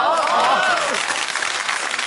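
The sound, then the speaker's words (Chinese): An audience at a stage comedy performance claps in a dense, steady burst of applause for about two seconds, with a voice briefly heard over the start. “待会儿呢，该鼓掌该鼓掌咱们就鼓掌”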